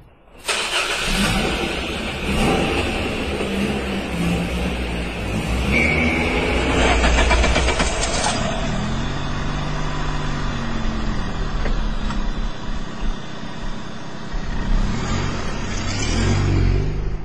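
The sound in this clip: Two cars start up and drive off one after the other: an engine catches and settles into a loud, steady running drone that holds with little change throughout.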